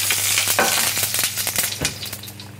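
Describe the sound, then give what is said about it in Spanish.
Olive oil sizzles in a frying pan as risotto for two is started, a loud crackling fry broken by a few sharp stirring scrapes and pops. “Bueno, vamos a hacer un risotto para dos personas. Aceite de oliva en la sartén.”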